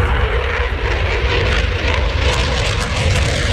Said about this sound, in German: So klingt es, wenn ein Eurofighter startet.